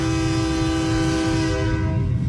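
Sustained train horn blast from a locomotive, a steady chord of low tones held without a break over a rumbling background, with no voices.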